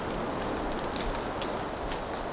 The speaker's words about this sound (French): des gouttelettes d'eau, des oiseaux, le bruit de fond du torrent.